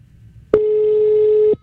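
Telephone ringing out with the call unanswered: a single steady mid-pitched tone lasting about a second, sounding alone over a faint low hum.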